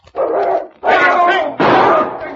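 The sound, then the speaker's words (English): A large, powerful dog barks and snarls behind a closed door, three loud, drawn-out bursts in quick succession, each with a rough, throaty edge. “The dog's in the next room. Don't go in there.”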